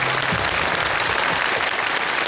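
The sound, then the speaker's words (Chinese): Applause from the audience at a poetry competition show, a dense, steady wash of clapping that runs the whole time with no talk over it. “来，掌声送给他们。”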